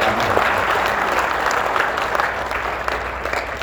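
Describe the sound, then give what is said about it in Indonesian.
Audience applause at a university event fills the whole clip as a dense, steady wash of many hands clapping at an even loudness, with no voices standing out. “Tepuk tangan dulu untuk adik-adik kita dan”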